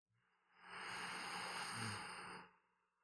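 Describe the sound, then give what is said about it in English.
A deep, slow exhale, a quiet and steady breathy whoosh lasting about two seconds that swells in smoothly and tapers off at the end. “And deep exhale. Last inhale.”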